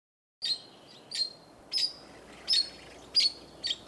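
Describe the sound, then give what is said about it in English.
Red-rumped parakeet calls from Southeast Australia: a regular series of short, high, sharp chirps with brief gaps between them, standing alone over a quiet background. “We leave you this week down under, in Southeast Australia, with the red-rumped parakeet.”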